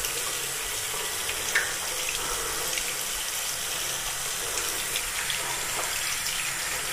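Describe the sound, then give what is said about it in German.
Hands being washed under a running tap, with a steady, even rush of water that flows without pause throughout, alone with no voices. “Ja, Hände waschen, gehört ja dazu.”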